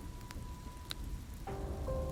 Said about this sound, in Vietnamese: Mưa rít gào ầm ĩ